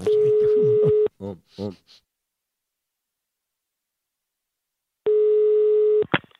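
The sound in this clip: Telephone ringback tone as an outgoing call is placed: a steady, buzzy tone burst of about one second, a few brief muffled sounds, a long silence, then a second identical tone burst ending in a click.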